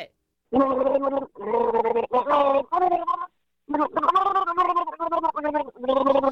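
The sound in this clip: Gargling a carbonated drink to the tune of a song: loud, bubbling voiced gurgles carry a pitched melody in several phrases separated by short pauses.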